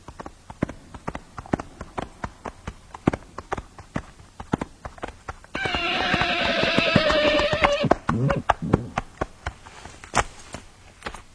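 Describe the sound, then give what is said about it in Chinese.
Hooves of a sword-bearing hunter's horse clip-clop in a forest with many steady, evenly spaced thuds, and a drawn-out whinny rises over them midway before the hoofbeats carry on. “这时候，远处来了一位骑马佩剑的猎人。”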